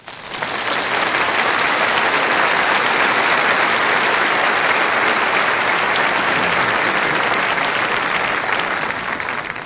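Audience applause welcoming John Maxwell at the Crystal Cathedral: dense, loud, sustained clapping from a large crowd that holds steady at full strength for about ten seconds without pause.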